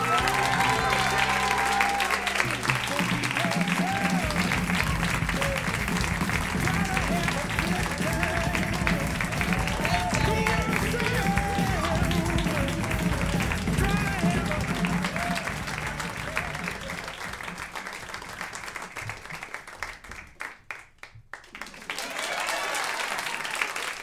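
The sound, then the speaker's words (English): A live show audience gives a long, loud, sustained round of applause with some cheering, holding steady for about fifteen seconds before thinning out and briefly dipping, then swelling again near the end. “Anyway, guys, give it up. This is a long round of applause, please”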